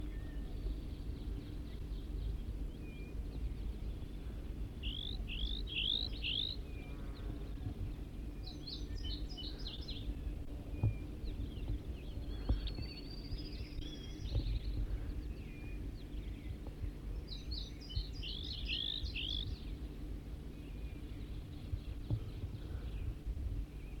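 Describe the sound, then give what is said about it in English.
Wild bird calls come as faint, high chirping trills in a few short bursts over steady, low background rumble. “Start recording a wild bird again.”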